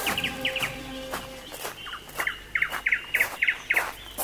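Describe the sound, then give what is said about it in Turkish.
Birds chirp in a garden in bright, high, rapid clusters that repeat in quick bursts, with a few sharper clicks scattered among the calls. “Uzaklara uçma kuşum.”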